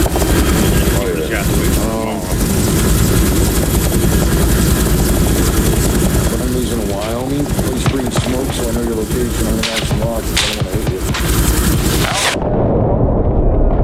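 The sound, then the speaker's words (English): Helicopter rotor and engine noise roar loud and continuous for several seconds, with people talking over the din before it cuts off abruptly near the end. “I'm in another chopper though. It's crazy.”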